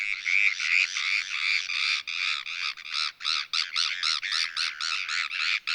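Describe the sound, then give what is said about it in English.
Bonaparte's gulls give social calls while feeding: harsh, nasal, rasping cries, first in a near-continuous stream, then breaking into a rapid, choppy series of many short notes, loud and alone. “this is most likely Bonaparte's gulls feeding, and these are social calls.”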